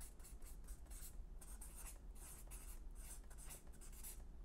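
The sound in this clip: Faint, steady scratching strokes of writing on a board as lines and a little star are drawn, many short rubbing passes in a loose rhythm with no talk over them.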